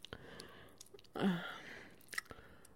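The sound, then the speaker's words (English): Soft, wet licking and smacking mouth sounds, quiet and close, with a few brief clicks and a longer squelching lick in the middle. “Right here, licking your scent gland.”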